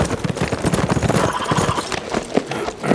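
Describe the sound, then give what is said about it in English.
Hooves clip-clop as a horse carries its rider up to the main gate of a ranch house, a steady run of many loud, rhythmic strikes. “Frank rode up to the main gate to the GP ranch house just after dawn the next day”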